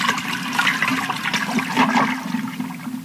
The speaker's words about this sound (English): A double flush.